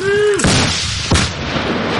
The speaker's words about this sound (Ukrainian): Постріл! Постріл!